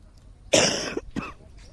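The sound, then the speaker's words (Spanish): A person with a month-long cough coughs out loud: one long, harsh burst, then a shorter second cough. “Está como yo, Silvia, que llevo todo el mes con la tos.”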